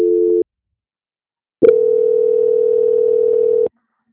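Telephone tones during a call transfer: a short steady beep, a stretch of silence, then one longer unbroken mid-pitched tone lasting about two seconds before cutting off cleanly.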